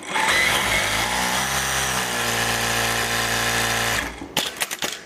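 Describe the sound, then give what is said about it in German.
Machines run in a textile sewing workshop in Berlin-Pankow, a loud, steady motorized whir for about four seconds that then cuts off, followed by a few sharp mechanical clicks. “Dafür war sie in einer Textilwerkstatt in Berlin-Pankow.”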